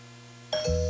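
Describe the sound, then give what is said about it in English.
A doorbell ringing a short two-tone chime, a higher tone then a lower one, clear and alone after a quiet start. “Me, your doorbell.”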